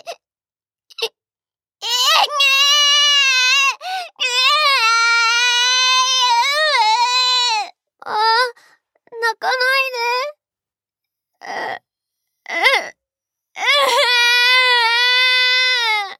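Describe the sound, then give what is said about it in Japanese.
Two babies crying in repeated high, wavering wails, broken by short gaps and a few brief sobbing catches, with no other voices clearly heard. “ったく、二人して泣くなよ。”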